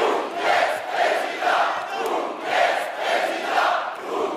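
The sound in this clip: A comedy-show audience chants the name of a fictional presidential candidate in unison, the voices surging in regular, evenly spaced beats at moderate loudness.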